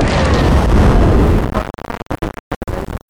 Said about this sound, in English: I'm firing my laser.